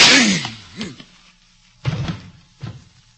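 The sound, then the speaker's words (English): Staged gunshots in a radio drama, heard as a couple of dull, thudding impacts that stand apart from the quiet around them. “Mr. Adams has been shot.”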